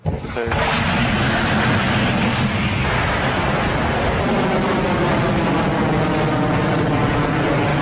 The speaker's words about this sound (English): We've had successful liftoff of Rocket Lab's ELaNa 19 mission.